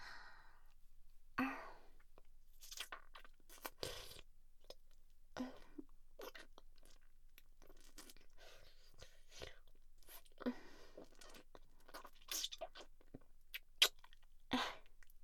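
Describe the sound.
Someone chewing and eating food, heard as soft, irregular crunchy clicks and moist mouth sounds mixed with quiet breaths and sighs, all faint and spread across the whole stretch.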